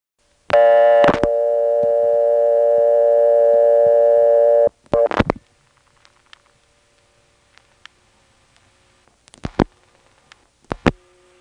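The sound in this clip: A payphone line gives a reorder tone after dialing one through a CAMA trunk. A harsh, buzzing telephone tone holds steadily for about four seconds, then cuts off, leaving a few sharp clicks and faint ticks.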